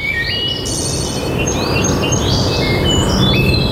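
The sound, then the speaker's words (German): Birdsong in a Bavarian forest, with many high chirps and whistled phrases layered over a steady, loud rushing wash of ambient noise, and no voices. “Hier im Wald klingt Bayern anders. Hör hin.”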